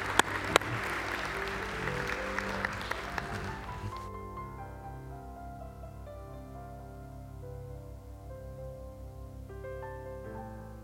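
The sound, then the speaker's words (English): Audience applause welcomes a children's choir, several seconds of dense, steady clapping that fades out as sustained instrumental chords take over and continue alone. “And with that, we want to welcome up Community Kids in the choir. Give them a big hand as they come to sing for us right now.”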